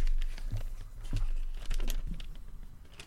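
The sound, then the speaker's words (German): A slip of paper is taken from a trouser pocket and unfolded, giving a few soft crinkles and rustles mixed with low handling thumps, quiet and uneven. “Und ich weiß, ich habe hier gerade so einen Zettel in meiner Hosentasche gefunden. Ich falte jetzt einfach mal diesen Zettel kurz auf.”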